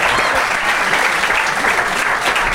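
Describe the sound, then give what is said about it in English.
A studio audience applauds to vote for a team in a comedy debate contest. Loud, dense clapping continues steadily from start to finish. “But if you think Esther and Ben made the best case, please applaud now.”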